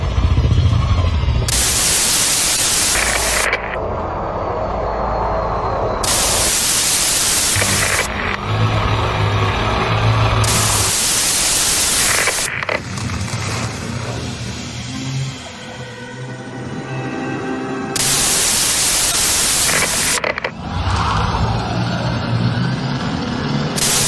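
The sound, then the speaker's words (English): Static from a weird incoming radio transmission: several long bursts of harsh, loud hiss alternating with warbling, garbled electronic tones, with no clear speech. “We're getting some kind of weird transmission. I don't know if we can stream that out to the viewers. Definitely something coming in.”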